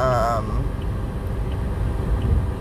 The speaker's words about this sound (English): Good morning, ladies. Driving to work. I'm almost there.